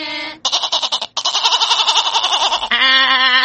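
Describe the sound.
A human voice imitates a goat's bleat during a children's animal-sounds game, giving a few loud, wavering, nasal bleats in quick succession. The last bleat is a steadier, sustained tone.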